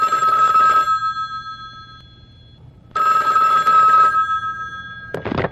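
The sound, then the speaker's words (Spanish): A telephone rings with an incoming call: two long, loud trilling bursts separated by a pause of about two seconds, with a faint hum in the quiet gap. “Bueno, tenemos otra llamada en este momento, vamos a ver de quién se trata.”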